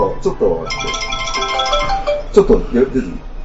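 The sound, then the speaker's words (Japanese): A phone ringtone sounds for an incoming call, a bright repeating electronic tone that holds for over a second while people keep talking over it. “あ、なんか電話かかって きた。”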